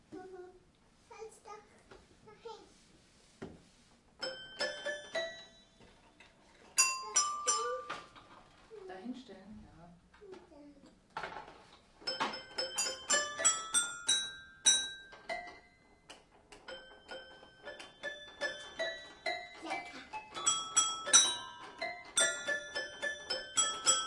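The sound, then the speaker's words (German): A toy piano that opens out of a small toy, its bright, tinkling notes struck in irregular runs and clusters, sometimes single, sometimes rapid, with soft voices heard at times between the phrases. “Guck mal, das kann man aufmachen. Dann ist es auch ein kleines Klavier.”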